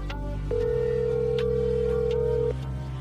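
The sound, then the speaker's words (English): Ringback tone of an outgoing phone call after dialing goes unanswered: one steady, even tone held for about two seconds over a low background hum, then silence. “It rings and rings. No answer.”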